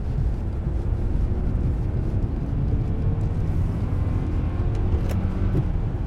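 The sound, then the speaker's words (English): Car engine driving through a turn, heard as a steady, low, rumbling roar that holds at an even loudness throughout. “He changes gear and makes another turn, speeding up.”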